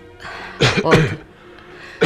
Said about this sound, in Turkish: Yarın patrona söyleyeceğim şu öksürükleri.